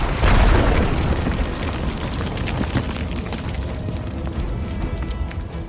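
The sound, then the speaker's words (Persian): Houses built of reed matting explode with a loud low boom at the start, then a sustained, rough rumble and crackle of debris that fades only slightly over several seconds. “منتظر باشین. خونه های حسیری منفجر میشن.”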